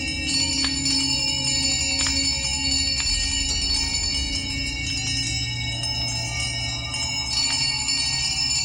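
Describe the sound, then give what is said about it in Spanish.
All the small bells of a house ring loudly together in a dense, sustained metallic jangle. Steady overlapping tones are broken by repeated strikes, with no voices. “Oscilaba tan suavemente al principio que apenas producía sonido, pero pronto sonó estrepitosamente, y lo mismo hicieron todas las campanillas de la casa.”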